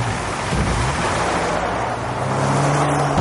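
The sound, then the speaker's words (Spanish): Engine and road noise of a Land Rover pulling away from an estate with an Alfa Romeo following behind, a steady, fairly loud low rumble throughout with no distinct pass-by. “Sube al Land Rover. Se alejan. Un Alfa Romeo le sigue.”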